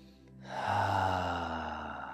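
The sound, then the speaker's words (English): A deep in-breath followed by a long, voiced 'ha' sigh on the exhale during a guided breathing exercise. The exhale is steady and moderately loud and tails off slowly. “And take a big deep breath in. Let a ha sound out.”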